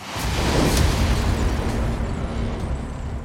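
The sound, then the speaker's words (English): A house explosion at night: a sustained, roaring blast rumble with a couple of sharp cracks near the start, the dense noise easing off gradually toward the end. “the house erupts in an inferno. The explosion wakes up neighbors who stumble outside to see a smoking mass of debris where the G's house once stood.”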